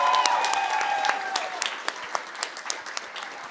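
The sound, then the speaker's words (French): An audience applauds the performing artists, a dense burst of clapping that thins out over a few seconds into scattered, separate claps. “Merci beaucoup, bravo à tous les artistes, vraiment, faites un maximum de bruit pour eux, parce qu'il y a du taf et c'est incroyable.”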